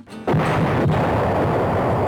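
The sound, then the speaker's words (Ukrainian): A distant explosion bursts in abruptly after a quiet moment, then rolls on as a loud, deep, sustained rumble for nearly two seconds, with no voices. “Цієї миті далекий вибух гостро підкинув темряву.”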